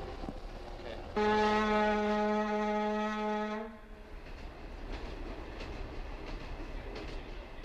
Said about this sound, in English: Many first-time emigrants arriving at London's Euston Station go to the Irish Centre in Camden Town